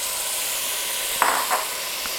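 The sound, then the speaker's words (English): Chopped homegrown tomato is tossed into hot spiced oil in a Dutch oven, bringing a couple of brief surges of louder hissing over a steady, bright sizzle of frying. “I'm stirring those in, letting the oil in the Dutch oven here bloom everything very nicely. Now we're going to go ahead and toss in my chopped tomato.”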